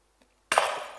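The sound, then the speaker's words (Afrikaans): A key drops and lands with a single sharp, bright clattering crash that rings briefly and fades, preceded by a faint tick, with no other sound around it. “En daar val die sleutel.”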